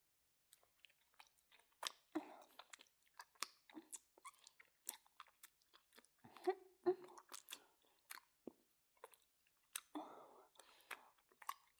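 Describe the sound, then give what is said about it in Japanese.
Licking sounds close to the microphone: many quiet, wet clicks and smacks in an irregular rhythm, with short soft slurps scattered among them and no other sound. “じゃあ、舐めるよ。”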